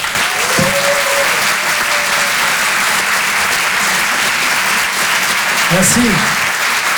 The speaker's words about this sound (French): Je vous demande de l'encourager et de faire un maximum de bruit, s'il vous plaît, pour Adrien Montowski.